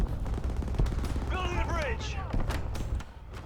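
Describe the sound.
Light machine gun fire in a video game: rapid, sharp bursts of shots scattered throughout, with a voice talking over the middle section.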